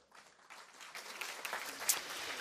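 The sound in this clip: Faint audience applause for people being congratulated, a soft, dense patter of many hands that builds slightly over its short length.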